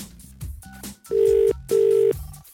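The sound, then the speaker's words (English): Telephone ringback after a call is dialled: two steady, loud ringing tones, each lasting under half a second with a short gap between them, over quieter background sound. “Okay, let's just dial this.”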